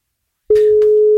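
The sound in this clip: Telephone busy signal heard while a radio host calls a listener: after a moment of silence, a single loud, steady mid-pitched tone comes in with a click and holds unchanged to the end.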